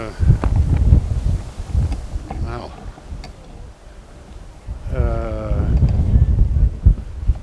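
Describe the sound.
Wind buffets the microphone outdoors at Schiphol airport, loud low rumbling gusts that swell and ease, with a voice speaking briefly partway through.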